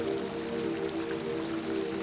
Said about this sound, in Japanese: その流れが岩に当たって砕けながら